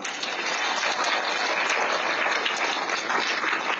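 An audience applauds in praise of Buddhist monastics at the close of a Chinese teaching. The applause is dense and even, a steady wash of clapping at one level throughout.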